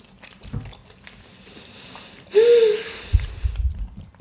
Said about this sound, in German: Ich wollte diese, diese kleinen, flutschigen Dinger schon immer mal essen.